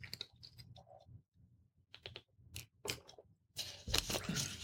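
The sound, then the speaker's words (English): A cracker being eaten to clear the palate after tasting cheese, quiet crisp crunches and irregular chewing bites, with brief gaps, growing denser toward the end. “All right, let me go ahead and clear the palate. I'm going to grab some cracker here.”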